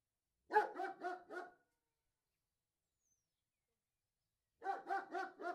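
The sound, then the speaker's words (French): A dog yaps in two short bursts of several sharp, high-pitched barks, with a few seconds of silence between them and no voices. “Tu entends ? On dirait un chien qui jappe !”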